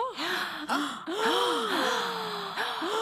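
Gasps of positive surprise from an emotion recording: several breathy voiced bursts in quick succession, each with an arching rise and fall in pitch, clear and fairly loud with no speech.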